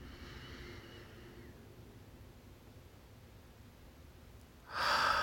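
A deep breath in during a guided relaxation session: a short, loud, breathy rush near the end that follows a long stretch of faint, steady hiss.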